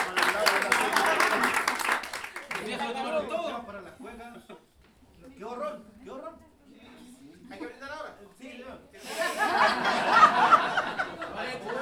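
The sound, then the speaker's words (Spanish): Audience applause at an improvised verse performance with cueca at a jazz school: clapping opens and swells again near the end, with talk and soft chuckles in between. “Un aplauso para ellos.”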